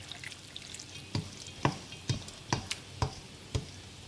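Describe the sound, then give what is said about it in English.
A spoon or whisk mixing lo bak gou (turnip cake) batter in a bowl gives a steady series of soft clicking taps against the bowl, evenly spaced and alone. “I'm just going to give this whole batter a good mix.”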